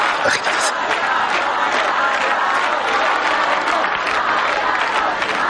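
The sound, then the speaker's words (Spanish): A large crowd gathered at a sanctuary applauding and cheering: a dense, continuous wash of clapping mixed with shouts and raised voices, staying loud and steady from start to finish. “una gran multitud se ha reunido en el santuario y todos aplauden reclamando a Mariano”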